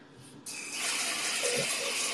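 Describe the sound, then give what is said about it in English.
Water running steadily from a tap while conditioner is rinsed out of hair: a sudden, loud rushing gush starts and holds as a bright, even hiss to the end. “Okay, I have to wash the conditioner out.”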